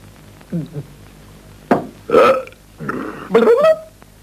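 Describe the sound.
Burps during wine drinking, starting with two soft short croaks, then several loud voiced belches of varying length, some drawn out and gravelly, each separated by brief pauses.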